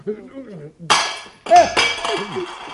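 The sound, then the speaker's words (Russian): A drinking glass for tea is dropped and breaks, a sudden sharp crash followed moments later by a second clattering burst, with voices talking before and after. “Стакан удержать не может. Ничего страшного. Ничего страшного, друзья мои. Разбился стакан, невелика потеря.”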